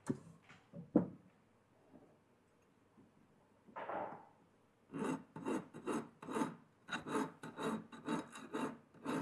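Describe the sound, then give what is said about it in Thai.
Rasping strokes of a large file smoothing and shaping welded metal edges. A few scattered scrapes and knocks come first, then many steady, rhythmic forward strokes fill the second half. “ขั้นตอนต่อไปเราก็จะต้องมาทำการตะไบนะครับขอบให้มีความเรียบแล้วก็ตกแต่งให้ได้รูปทรงนั่นเองนะครับเราเริ่มต้นโดยการใช้ตะไบตัวใหญ่ก่อนนะครับ”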